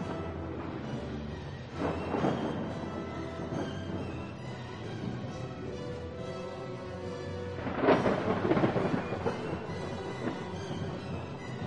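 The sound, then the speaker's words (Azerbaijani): Thunder from a lightning strike: a continuous deep rumble with two heavier crashes swelling out of it, loud and alone without any voices. “Sehr ulduzu bir anda şimşək çaxdırdı.”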